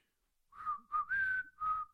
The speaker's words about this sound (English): Where you whistle? Let me whistle.